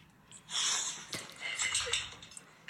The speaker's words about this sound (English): You can hear his snorting.